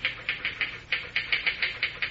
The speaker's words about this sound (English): Boy, you sure can pound that machine. Think all of it'll be able to type like that?